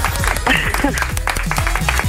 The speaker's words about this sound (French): ça s'applaudit. Bravo.